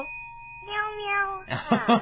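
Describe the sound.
Cat meowing: one long, drawn-out tonal meow, then a couple of shorter, harsher cries, all above a faint steady tone.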